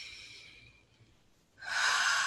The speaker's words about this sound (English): go ahead and close your eyes, taking a deep breath in.